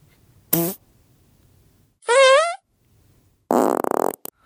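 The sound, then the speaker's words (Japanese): Farts in a comic setting: three separate bursts with silence between them. The first is short, the middle is longer and tonal with a wavering pitch, and the last is rough and buzzy with a sputtering tail. “なんでお化けのおならが混じってんだ”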